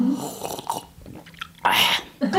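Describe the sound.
A voice imitating eating and chewing, with exaggerated smacking and biting mouth noises in uneven bursts, then a louder, breathy chomp near the end.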